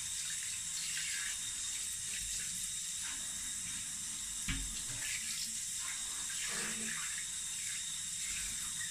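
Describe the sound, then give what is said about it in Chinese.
Water runs steadily from a tap to rinse a cat after its bath, a continuous even hiss of flowing water that holds at the same level throughout. “猫猫哪懂人类洗澡的快乐呀，是吧？好啦，给你洗完了，准备冲了。”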